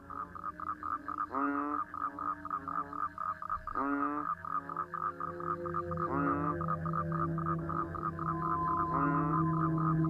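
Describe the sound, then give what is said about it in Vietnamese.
Frogs croak outside at night in a rural Vietnamese setting. A few warbling, rising calls repeat every couple of seconds over a steady, tonal chorus that never stops. “Trời càng về khuya, tiếng ếch nhái cứ ỉ ải ỉ oạp ở bên ngoài.”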